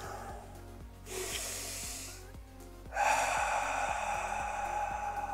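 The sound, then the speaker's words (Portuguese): Slow breathing through the nose: a soft, airy inhale, a short pause, then a longer, fuller exhale, both over a steady, gentle rhythmic beat. “Soltando devagar o ar. Inspira bem, enche o pulmão pelas narinas.”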